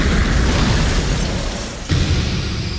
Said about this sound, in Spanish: ¡El avión va a explotar! ¡Va a explotar!